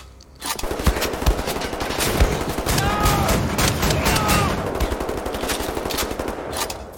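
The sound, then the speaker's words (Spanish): Gunfire in the video game Wolfenstein: The New Order, including shotgun fire, comes as a dense barrage of many rapid, overlapping shots that carries on almost without a pause. “Ahí está, lo caché con la escopeta.”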